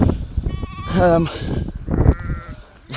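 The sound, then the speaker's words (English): Swaledale sheep and lambs bleat across the top of the crags. A few wavering calls, some higher and thinner like lambs, stand out over a low rustle of background noise. “as you can hear. Lots of lambs.”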